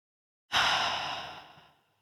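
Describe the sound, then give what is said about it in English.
One long, deep breath released as an airy sigh, rising quickly and then slowly fading out. It is soft and heard alone. “So let's all just take a deep breath together and just let this moment be what it is.”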